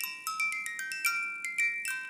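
A small mechanical music box, wound by a winder on the back and set off by a pulled pin, plinks out a tune in many quick, bright, high notes. The box has been dropped and one note sounds distorted. The playing is fairly faint and heard alone.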